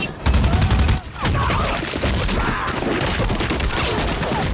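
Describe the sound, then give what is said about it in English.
Machine gun fire from a jeep-mounted gun turned on enemy troops in a war film battle, loud rapid bursts of shots with heavy booms, briefly dropping near one second before dense firing resumes. “He shoots the jeep driver with the machine gun.”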